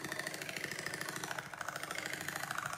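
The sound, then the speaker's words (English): A Singer 5802C sewing machine stitches with a continuous, fast, even mechanical whir and clatter. Its rhythmic pulsing stays fairly soft and steady, with only a brief dip midway. “The composer Natalia Bayliss made an album from sewing sounds recorded on a Singer 5802C.”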